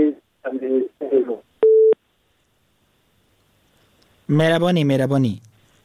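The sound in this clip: A telephone line tone sounds after a caller is cut off during a phone-in: one short, steady beep between stretches of talk, followed by silence before speech resumes.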